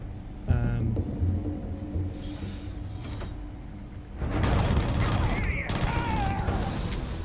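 Gunfire in a video game combat scene. Dense, loud rapid bursts dominate the second half, and mechanical clanks and creaks come before them.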